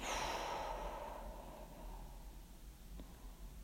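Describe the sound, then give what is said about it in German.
Deep breathing during a guided eyes-closed relaxation exercise: one long, soft, breathy exhalation that fades over about a second into near silence. “Atme tief ein und aus.”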